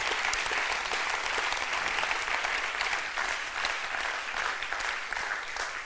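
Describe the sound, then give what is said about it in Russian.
Applause from a church audience, dense and sustained clapping that stays fairly steady and loud for several seconds, with no voices standing out. “Let's give the Lord a big hand. Давайте похлопаем Богу.”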